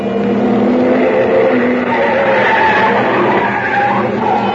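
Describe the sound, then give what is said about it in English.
A car speeds past along a street, its engine a sustained roar with a shifting tonal whine that holds fairly loud throughout, with no voices over it. “I was halfway there when I heard the car.”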